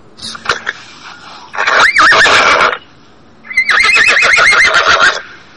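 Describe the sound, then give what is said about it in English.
A horse neighs twice in loud, long whinnies with a shaking, wavering pitch, with a quiet pause between them and a few faint sounds before the first call. “Put that fucking horse back in the stable.”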